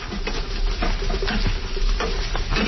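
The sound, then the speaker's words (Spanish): Mashed food sizzles as it fries in a skillet over a wood fire of pine, fir or oak. A dense, steady crackle with small pops and spits carries on evenly throughout. “La dejamos freír un ratito.”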